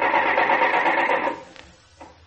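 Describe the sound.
A car engine cranks over without catching, its carburetor flooded: a dense, buzzing starter whir runs steadily for over a second, then drops away to faint, irregular sounds.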